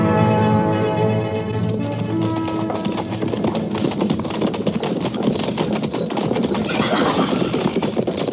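A cavalry patrol's horses clip-clop on the wild frontier, with many rapid, overlapping hoofbeats at a steady trot throughout. Sustained tones sound along with them early on.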